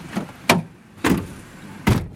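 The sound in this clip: Car doors thud shut as police officers board their patrol car on an island. Three solid, separate slams are spaced about half a second to a second apart, with only quiet background between them.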